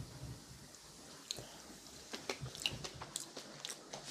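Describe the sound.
Faint crunchy bites and soft chewing as someone tastes a children's dish, with a few scattered clicks and squelches over a quiet background.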